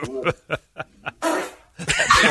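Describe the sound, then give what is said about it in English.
A fart from a teen girl as a grown man pushes on her, heard as loud, noisy, sputtering blasts that follow a few short, clipped bursts of sound. “always funny when a grown man pushes on a teen girl until she farts”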